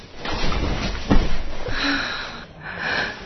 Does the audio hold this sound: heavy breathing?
yes